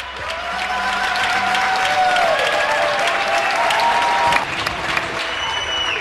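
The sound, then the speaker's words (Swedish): Applause rings out from balconies in Spain during the coronavirus lockdown, as residents clap around 10 p.m. Dense, steady clapping carries on throughout, with a brief louder swell near the end. “Det du hör är ljudet av tacksamhet. Några dagar efter att invånarna i Spanien satt i husarrest av sin regering för att motverka spridningen av corona gick man ut på sina balkonger vid 10-tiden på kvällen och började applådera.”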